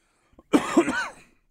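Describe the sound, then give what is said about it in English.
A person coughs in a short, harsh bout of two rough bursts, preceded by a faint throat sound, then trails off into quiet. “Man, I am coughing up a storm right now”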